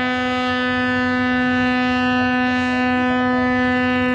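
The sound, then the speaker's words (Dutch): A ship's air horn sounds one long, steady, low blast rich in harmonics. It stays loud and sustained for the full four seconds, with no break or pitch change. “een luchthoorn van de schulp gehad. Dat klonk zo, zeg maar.”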